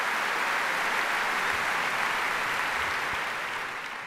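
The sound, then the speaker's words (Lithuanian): Sustained, thick audience applause for the BBC Symphony Orchestra after a performance, many hands clapping in an even roar that thins slightly near the end. “Plojimai orkestrui, iš tikrųjų puikus atlikimas.”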